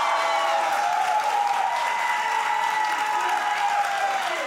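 A studio audience applauds a guest introduced as number 41 in a continuous, even wash of clapping. The sound holds at a steady loudness from start to finish, with no break or swell.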